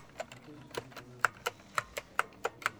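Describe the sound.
Keys clack on a computer keyboard in a steady series of distinct, evenly spaced strokes, each a crisp click above a faint background.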